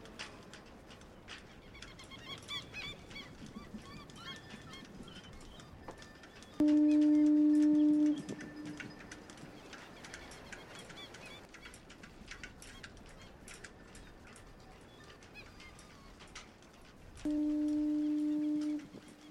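Foghorn on the coast by Church Bay and Myrtleville sounds two long, steady, low blasts about ten seconds apart, with faint bird calls over a quiet background between them.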